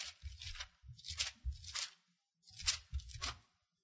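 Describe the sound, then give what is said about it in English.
Pages of a Bible are turned in a few quick bursts of papery rustling and swishing, soft and uneven, with short gaps between them. “I didn't type this out, so I'll just turn to Psalms 45.”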